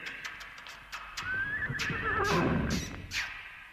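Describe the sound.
A winged horse from a sung folk tale neighs faintly, one quavering whinny that starts high and shakes downward in pitch before fading out.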